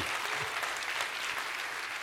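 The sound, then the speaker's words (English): A church audience claps hands in rejoicing: dense, steady applause from many people, a continuous crackling wash of claps at an even level for two seconds, with no clear voices above it. “Clap your hands and rejoice.”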